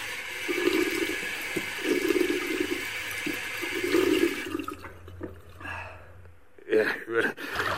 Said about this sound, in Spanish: Oiga, otra vez que sale el agua.